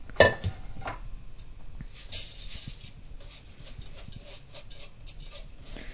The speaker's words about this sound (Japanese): お米を炊飯器の内釜に入れます。